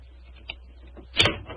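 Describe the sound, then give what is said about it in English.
A skeleton key unlocking a locked door, with a faint light click followed by a louder, brief metallic clack and rattle of the lock, with little else around it. “Is the door locked? Yes, but I think a skeleton key will do the trick.”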